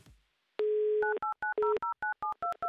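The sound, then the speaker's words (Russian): A telephone number to Ryazan being dialed: a steady dial tone, then a quick, even run of clear touch-tone beeps, each key a short two-note bleep, loud and heard alone. “Номер телефона мы набрали.”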